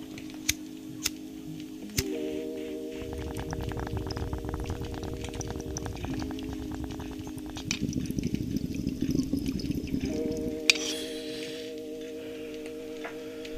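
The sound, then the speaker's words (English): Bubbling water from a bong hit taken up close to a microphone, with rapid gurgling bursts in two stretches over a steady low tonal hum, fairly quiet and with no talk. “I'm gonna take this bong hit real quick on the microphone for you guys. I'll get that ASMR.”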